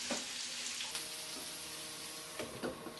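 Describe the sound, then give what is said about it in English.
Vegetables with spices cook in a pan, giving a steady, quiet sizzling hiss with a few faint ticks and pops, and no voices. “Cover the pan and leave to cook for a further 5 minutes so the spices really blend well with the vegetables.”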